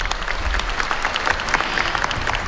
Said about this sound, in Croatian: Pozdravimo i prvu žensku klapu večerašnjeg finalnog koncerta što nam je stigla iz Zadra.